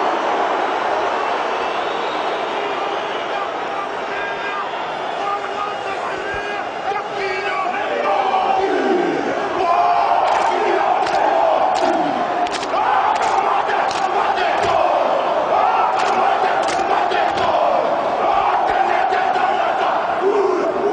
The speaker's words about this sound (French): vous avez tout de suite reconnu le haka du quart de finale de 2007 des All Blacks.